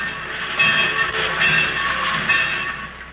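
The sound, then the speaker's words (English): Trains in a railroad yard make a busy hum of industry, a steady, dense rumble with a bright metallic hiss on top. It stays at an even loudness throughout, with no distinct separate events. “Everywhere you can hear the busy hum of industry, in the sawmill, in the railroad yard,”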